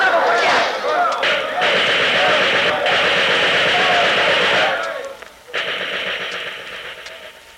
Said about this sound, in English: Merchants and Farmers Bank, Grapeland, Texas, raided by machine gun bandits. Okay, boys, give the people in this bank another blast.